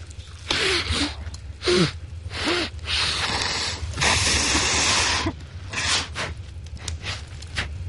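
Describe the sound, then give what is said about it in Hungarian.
Nose blowing comes in many rough, breathy bursts of hissing air, some loud and some softer, with short snorting sounds between them and a few pauses. “Fújt ki az orrod! De most nem kell! Akkor is! Én is ki fogom fújni, na!”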